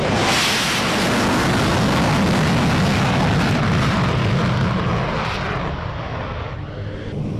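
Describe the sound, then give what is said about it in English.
An F-16 fighter jet taking off produces a loud, unbroken roar that fills the whole clip and eases off slightly toward the end, with no voices. “Okay, the last of these F-16s to take off. Wait for the kick.”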